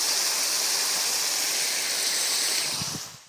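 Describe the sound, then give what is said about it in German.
Steady rushing hiss of tap water running into an old food container, used to rinse out the last of a spicy Thai curry while cooking. The flow runs continuously for about three seconds, then cuts off. “Bisschen Wasser in eine alte Verpackung. Voilà.”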